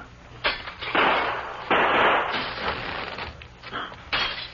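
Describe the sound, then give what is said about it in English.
Window glass being smashed, heard as a few loud, noisy crashing bursts with scattered rattling between them. “As soon as he fires, you raise the shade and I'll smash this window.”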